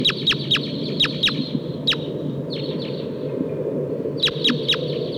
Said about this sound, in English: I hear wild crossbills here. It sounds like a Sitkensis type.